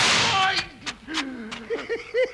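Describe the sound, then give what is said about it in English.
Gunshots in an old-time radio western drama, several sharp cracks in quick succession mixed with excited voices. “Billy's shooting!”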